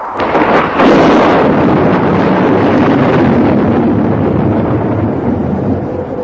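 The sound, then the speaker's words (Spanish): Strong wind blowing with tremendous force and passing high overhead, a loud, steady roaring rush that fills the whole clip, swelling slightly near the start and then holding even without any voices. “El viento soplaba con una fuerza tremenda, produciendo extraños sonidos al pasar raudo muy por encima de ellos.”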